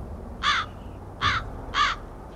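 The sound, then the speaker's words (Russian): A raven caws after landing on the ground, giving three harsh, evenly spaced caws over a low, quiet background. “Послышался крик ворона, только что спланировавшего на землю. «А?» — ворон повторил.”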